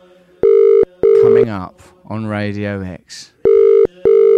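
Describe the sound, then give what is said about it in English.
A telephone ringing tone on an outgoing call made live on a radio show. Two pairs of loud, steady electronic ring bursts are heard, with a man talking in the pause between the pairs. “That's the sound of his phone.”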